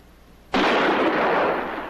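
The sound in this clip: A handgun shot goes off with a sudden loud blast that leaves a broad, sustained roar of noise dying away only slowly over more than a second, with no voices.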